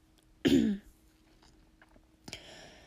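Throat clearing: a short, rough, raspy burst, followed a moment later by a fainter second rasp, each standing alone against near silence.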